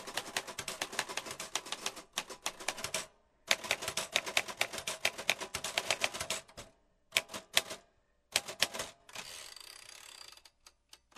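Someone types a quick note on a typewriter, rapid clacking keystrokes in bursts separated by short pauses, ending in a steadier mechanical rattle.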